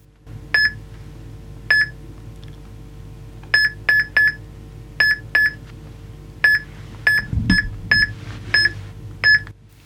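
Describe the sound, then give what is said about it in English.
Beeping from a NeuroNode assistive technology device: many short, bright electronic tones, some alone and some in quick pairs or triplets, repeating in an irregular pattern over a faint low hum. “What you're hearing is the sound of the NeuroNode beeping.”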